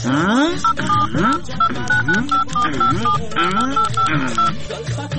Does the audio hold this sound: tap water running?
no